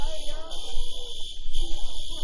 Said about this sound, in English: Is anybody burning? You see anybody burning? Look, he's sleeping through the fire alarm.